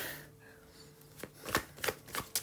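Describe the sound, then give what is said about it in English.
Tarot cards are shuffled and drawn, with soft sliding followed by several crisp, papery snaps and flicks that grow louder toward the end. “Let's get some more cards. Let's get some more cards.”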